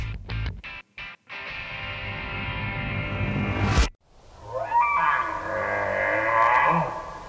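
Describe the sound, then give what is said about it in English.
Cry of an elk from the western United States, a long high whistling call with layered harmonics that rise and waver for several seconds. “Ah, that was the cry of an elk from the western United States.”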